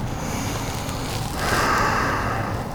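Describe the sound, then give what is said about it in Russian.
Ujjayi breathing during a yoga warm-up is a steady, throaty hiss of air that runs without a break and swells a little louder partway through. “Смотрим в пупок, дышим уджайи. Шипящее дыхание.”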